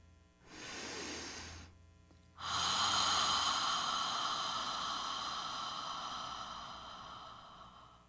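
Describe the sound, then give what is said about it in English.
A slow breath drawn in through the nose, a brief pause, then a long, airy exhale through the mouth as a whispered ha that starts strong and gradually fades over several seconds. “Take a deep breath through your nose. Hold the breath for a moment and then release the air through the mouth using a whispered ha sound, like this.”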